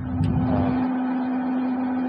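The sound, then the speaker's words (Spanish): An $8,000 3D printer hums and whirs steadily as it deposits layer after layer of plastic for a pistol prototype. A constant low tone sits under a continuous mechanical drone with no talking. “Fue fabricada con esta máquina de $8,000 por Cody Wilson, un estudiante de leyes, y es criticada por grupos que piden un mayor control de armas. Para imprimir el prototipo, la máquina deposita una y otra vez capas de material plástico.”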